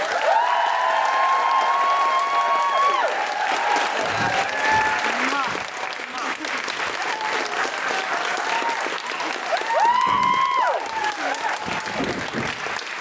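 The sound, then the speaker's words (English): Enthusiastic audience clapping welcoming a comedian guest to the stage, sustained and dense for the whole stretch, with brief tonal sounds rising above the crowd. “Please put your hands together and make exciting hooray noises for Sadia Azmat.”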